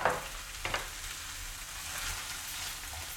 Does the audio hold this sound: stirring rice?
yes